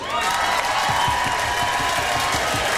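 An audience claps continuously, a dense and fairly loud wall of applause blended with crowd noise that keeps a constant level.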